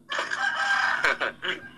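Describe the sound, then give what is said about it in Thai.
A rooster named KTC from the Ruen Thai Korat farm crows loudly. One long strained crow breaks into a few shorter trailing bursts at the end. “KTC เป็นไก่ของเรือนไทยโคราชถูกต้องไหมพี่”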